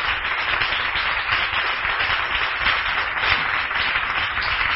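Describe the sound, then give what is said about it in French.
Congregation applauding at a Sunday church service: sustained, dense clapping holds at an even level throughout, with no voices over it. “Est-ce que nous pouvons offrir une chaude acclamation à l'honneur de notre Dieu?”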